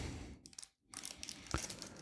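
A knife cuts a 160-gram packaged cheese in half, giving faint, soft crinkling and crunching of the wrapper with a brief pause midway and one sharper crack near the end.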